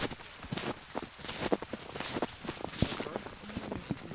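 Crunching snowshoe footsteps on a snowy forest trail: many soft, irregular steps with faint rustling between them.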